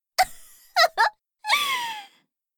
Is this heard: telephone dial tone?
no

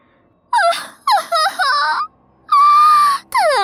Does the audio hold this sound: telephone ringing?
no

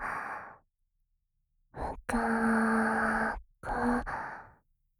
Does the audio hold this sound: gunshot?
no

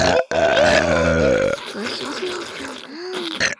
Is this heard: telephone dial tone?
no

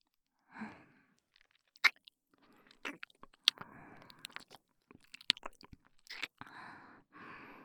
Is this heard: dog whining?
no

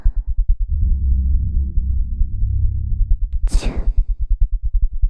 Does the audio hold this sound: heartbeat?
yes

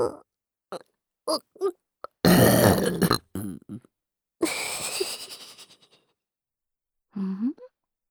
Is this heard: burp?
yes

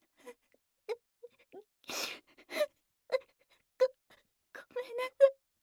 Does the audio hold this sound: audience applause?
no

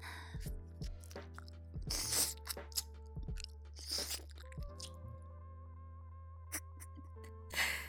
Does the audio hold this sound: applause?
no

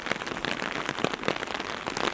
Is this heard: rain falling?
yes

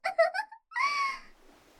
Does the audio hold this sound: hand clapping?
no

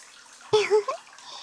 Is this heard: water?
yes

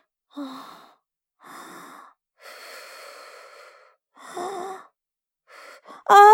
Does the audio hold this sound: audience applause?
no

